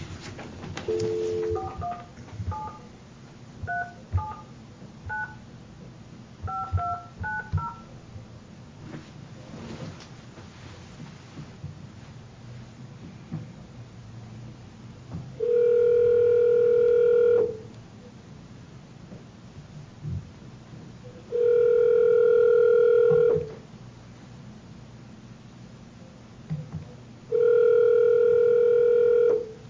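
A telephone call back: a string of short keypad dialing tones beeps out first, followed after a pause by three long, evenly spaced ringback tones, steady and clear over faint background hiss.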